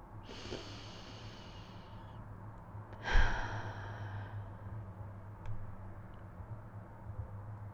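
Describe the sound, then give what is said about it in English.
Slow, deep breaths drawn in, heard as two soft airy rushes. The second begins with a sharp snort-like onset and then fades, over a low steady hum. “take a moment right now to slow down and pause and breathe in deeply for a count of five”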